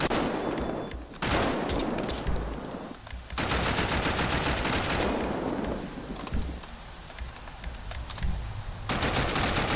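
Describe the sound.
Automatic gunfire rattles in a police video game, coming in long, loud, rapid bursts separated by brief pauses.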